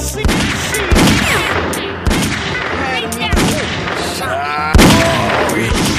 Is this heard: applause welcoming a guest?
no